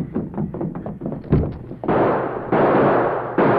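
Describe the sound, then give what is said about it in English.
Gunshots fired at outlaws fleeing after a safe robbery in an Old West setting: several loud, sharp blasts with lingering rumble, preceded by quicker knocking thuds. “Who are you shooting at?”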